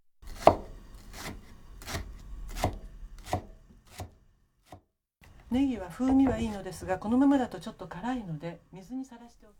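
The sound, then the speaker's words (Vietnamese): A knife slices leek thinly into rings on a board, a steady series of crisp, evenly spaced chopping strokes that stops before a person starts talking. “Cuối cùng, chúng ta sắc hành baro. Hãy sắc thật mỏng thành những vòng tròn.”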